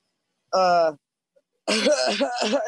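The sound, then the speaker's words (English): A voice imitates a coughing fit, starting with a short strained vocal sound, then a rough run of several harsh, choppy coughs after a brief pause. “he just starts coughing.”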